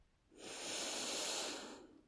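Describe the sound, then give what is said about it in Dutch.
A long, deep breath taken during a guided relaxation exercise, heard alone as a single breathy hiss that swells smoothly, holds for a moment at its peak and fades away over about two seconds. “Adem nog eventjes heel diep in. Hou vast. En uit met zucht. Nog een keer heel diep in.”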